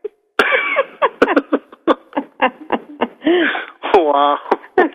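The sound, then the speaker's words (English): A woman coughs and sputters after spitting out her soda. Many sharp, rapid coughs are broken up by short voiced, laugh-like sounds, loud and uneven throughout. “Listen to her. She's coughing in the background.”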